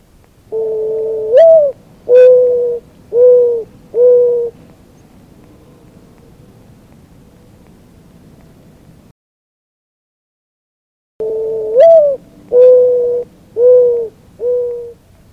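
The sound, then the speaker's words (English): Mourning dove cooing in two phrases of four hollow, low coos each, the first coo of each phrase longer and rising before three shorter, level coos, with a quiet pause between phrases. “The morning dove song is a hollow, mournful coo, coo, coo, coo. Listen.”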